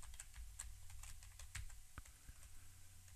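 Rapid typing on a computer keyboard: many light, irregular key clicks in a quick, uneven rhythm, fairly quiet over a low steady hum, with no talking.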